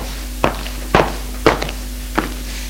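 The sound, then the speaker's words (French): Footsteps go down a staircase: four firm, separate thuds at a steady but slightly uneven pace over a constant low hum. “Long du couloir. Descend les escaliers”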